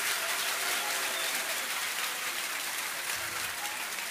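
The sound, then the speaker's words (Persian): A religious gathering fills the air with thick, continuous applause. The crowd claps at an even, heavy level from start to finish, a rain-like hiss of many hands with no pauses. “یه کف قشنگ ببین، یه جوری که من بدونم حال داری یه خورده دست بزنی.”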